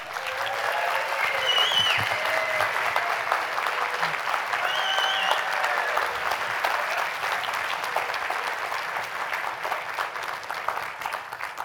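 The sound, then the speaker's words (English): An audience applauds to welcome an actor guest onto the stage, a long, sustained burst of clapping hands that stays loud and even and eases off only slightly toward the end. “Can you put your hands together and welcome, please, Julian Glover?”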